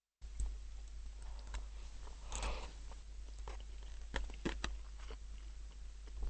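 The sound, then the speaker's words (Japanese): Someone eats fried rice made with instant miso ramen noodles, making faint, scattered bites, soft chewing and small crunchy clicks. “はい、というわけで今目の前に完成したものがあります。味噌ラーメンのパラパラチャーハンです。まあそば飯ですね、見た目は完全にね。でもうちょっと食べてみようと思います。”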